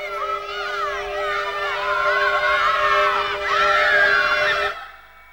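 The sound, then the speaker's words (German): Neighbours' children screaming nonstop, heard as a sustained, wavering, high-pitched wail with bright overtones. It rises in intensity toward the end before cutting off abruptly, leaving near silence. “Die Kinder unserer Nachbarn schreien seit gestern Nachmittag praktisch ohne Unterbrechung.”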